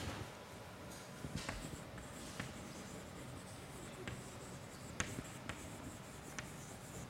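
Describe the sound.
Handwriting makes soft, scratchy strokes with a few sharper taps scattered among them. The sound is faint and steady throughout, with no voices.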